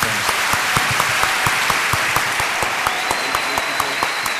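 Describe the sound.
Audience applause for doctors, nurses and medical staff on a talk show: a steady, dense wash of clapping with sharper individual claps popping out throughout, holding an even loudness to the end.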